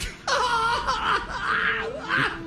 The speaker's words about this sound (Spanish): Ya le hiciste llorar, brillo.